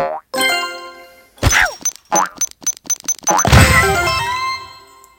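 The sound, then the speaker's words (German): Springy cartoon boings and thuds from a red ball jumping and bouncing in the Red Ball 4 platform video game, a quick run of short bouncy hits with bright tonal blips, ending in a longer, louder crashing burst. “Ich dachte, dass man vielleicht so auf den Rand springt, aber ich probiere jetzt mal auf ihn drauf zu springen.”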